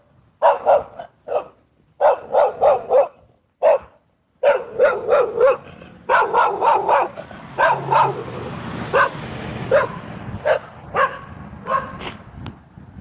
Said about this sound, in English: Speaking of disruption, that dog was pretty disruptive.